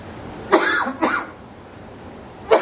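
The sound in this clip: Throat clearing from saliva: three short, rough bursts, two close together, then a pause before a third.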